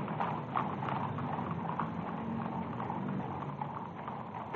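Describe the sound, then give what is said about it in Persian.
Hooves of the Imperial Guard cavalry horses on parade: a steady stream of many clip-clops blended into a constant, dense background noise, with no voices. “اسواران گارد شاهنشاهی در پشت سر ملوکانه در حال حرکت هستند.”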